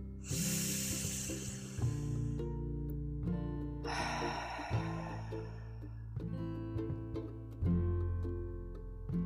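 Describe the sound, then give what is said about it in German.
Deep, breathy exhalations during a guided relaxation exercise come as two long airy releases over soft, sustained background music. “Ich atme jetzt richtig tief durch und lasse dabei alle alten Anspannungen aus meinem spirituellen Körpersystem fließen.”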